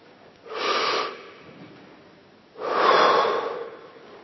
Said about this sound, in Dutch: haal eens adem.